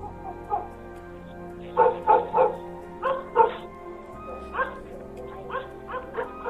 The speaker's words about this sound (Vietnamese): nghe tiếng chó sủa dữ dội, rồi tiếng ăng ẳng như là tiếng chó bị thương, nghe nó thê thảm lắm.